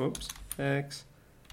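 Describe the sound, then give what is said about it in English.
Someone types on a computer keyboard while talking, a few light clicking keystrokes running beneath the voice. “It's hard to type and talk at the same time. I don't know why.”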